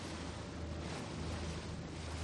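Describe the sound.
Sea waves wash against a fishing boat in Spanish waters, a steady, even rush of water and wind noise that continues without clear separate impacts.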